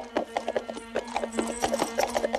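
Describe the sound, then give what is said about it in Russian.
Hooves clip-clop as a horse-drawn carriage sets off, a quick, steady run of sharp hoofbeats over a sustained low tone. “Трогай! Карета едет.”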